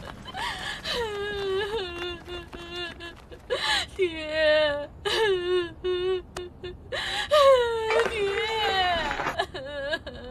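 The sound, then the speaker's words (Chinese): Crying and whimpering: wavering, moaning wails rise and fall again and again, broken by short gasping breaths and sobs. “你再哭也扶不过来啊。啊，别哭了啊。”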